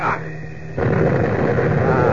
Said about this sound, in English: Is right, this bomb ought to explode just as it hits that bomber.